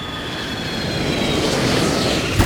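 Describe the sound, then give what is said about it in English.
An aircraft comes in for a landing with a loud, broad engine roar, steady and rushing with faint high whining tones, holding level before a brief thump near the end. “Hang on, we're coming in for a landing.”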